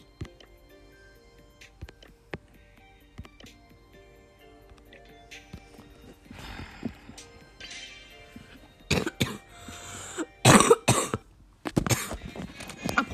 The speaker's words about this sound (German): Entschuldigung, ich bin ja ein bisschen krank. Sogar ein bisschen sehr krank, aber. Ähm, auf jeden Fall tut es mir leid. Ich werde auf jeden Fall in dieser Folge öfters mal husten.